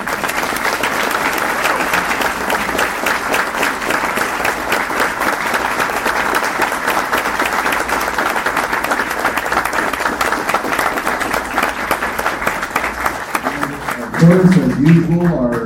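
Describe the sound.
Sustained audience applause welcoming a guest: dense, steady clapping that holds at an even loud level for about fourteen seconds, then swells briefly as a voice begins near the end.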